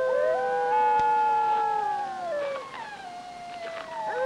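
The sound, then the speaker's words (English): A pack of wolves howls in the distance over a frozen, moonlit snowy landscape. Several long tonal wails overlap, holding steady before sliding downward, and a few fresh howls rise in near the end. “In the distance, a pack of wolves gathers in a grove of trees.”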